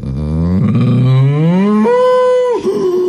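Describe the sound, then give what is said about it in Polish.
A cow's long moo, starting as a low, rough drawn-out groan, then jumping to a higher, steady, pleading tone before breaking off and dropping back; loud and alone, with no voices. “Bo krowy robią takiego zwrotniaka. Najpierw wypuszczają powietrze, potem nabierają z tym takim błaganiem.”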